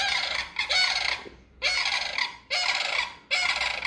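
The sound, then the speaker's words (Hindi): Sandhill crane calls: loud, rolling, bugle-like cries in a series of long repeated bursts with short gaps between them, heard alone with no talk. “सैंडहिल crane, Betsy ने कहा। जल्दी करो, चलो उनकी आवाज़ का पीछा करते हैं।”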